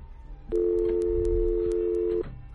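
A steady telephone line tone from a dropped call on a call-in line: one continuous, even tone lasting under two seconds, with faint regular ticks above it. It starts and stops abruptly.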